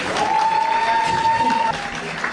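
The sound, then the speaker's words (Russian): An audience applauds a contest finalist at an awards ceremony. Dense, steady clapping runs the whole length and eases slightly toward the end. “Емельянова Вероника, ваши аплодисменты”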